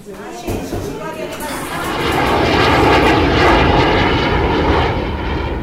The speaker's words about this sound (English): We are now landing in Johannesburg.